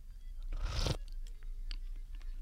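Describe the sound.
A brief slurp of sweet potato and barley steamed chicken paitan soup, a single breathy burst of about half a second, followed by faint scattered clicks and ticks.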